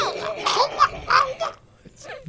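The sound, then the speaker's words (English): A voice imitates a crab monster's horrific gargling, wailing cry during combat in a tabletop role-playing game, with a few throaty, warbling bursts over the first second and a half, then quieter, fading vocal sounds. “So the crab makes this horrific... gargling, wailing sound”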